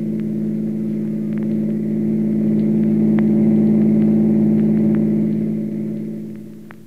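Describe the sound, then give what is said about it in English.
A car accelerating away after the driver steps on the gas: a steady mid-pitched engine drone with a low rumble that swells slightly, then fades out over the last second. “And then he stepped on the gas and headed for the Rushville Center House.”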